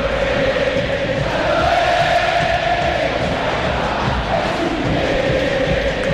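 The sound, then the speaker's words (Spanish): River Plate fans roaring at the Monumental stadium: a loud, dense mass of voices that keeps going, with chant-like singing running through the din for the whole stretch. “Cuando así se levanta la gente de River, escuchan al público millonario aquí en el Monumental.”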